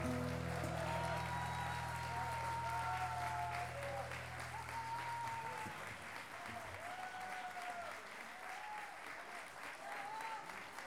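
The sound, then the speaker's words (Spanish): An audience applauds at a national improvised sung-poetry duel in Chile, a faint, steady patter of clapping with thin melodic tones drifting over it and a low hum fading out midway. “Por eso, dice Contreras, aplauso a Rodrigo Núñez.”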